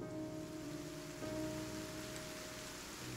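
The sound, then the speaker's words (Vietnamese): Rain falls steadily through a night-time rain and wind storm over a village, a faint, even hiss that carries on without a break. “Đêm nay, thời tiết lại chuyển biến xấu, mưa gió đì đùng.”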